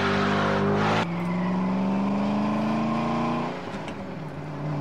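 A Ford GT engine revs in a 2004 car commercial with a loud, continuous harmonic growl. The pitch climbs, drops sharply at a gear change, climbs steadily again, then falls away and settles near the end.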